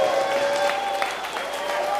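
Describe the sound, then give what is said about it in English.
A church audience clapping in praise during a service: a dense, steady roar of many hands over sustained musical tones, with a few voices rising from the crowd. “let's just give the Lord a big old hand clap of praise.”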